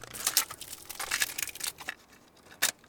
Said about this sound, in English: That's the sound of a brand new cassette tape being unwrapped and put into a cassette deck.